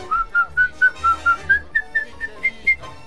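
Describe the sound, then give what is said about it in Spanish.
A woman whistles a tango melody alone, a clear run of short notes and held tones that climbs gently in pitch across the phrase. “por favor, silbame lo que salió. Y la mujer hizo.”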